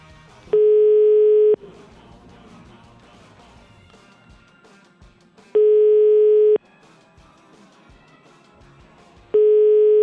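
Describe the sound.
Ringback tone of an outgoing telephone call: three steady one-second tones, each followed by a pause of about four seconds, with faint background sound between them.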